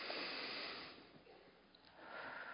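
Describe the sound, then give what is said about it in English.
A deep inhale through the nose gives a faint, soft airy hiss of drawn breath. It fades midway, and a second breathy swell rises toward the end. “And just inhale through your nose as much as you can.”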